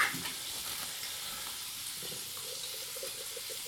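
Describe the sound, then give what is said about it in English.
Cooked beans warming in a pan give off a faint, steady sizzle, a soft even hiss that carries on alone throughout. “In the meanwhile, we can warm up the beans.”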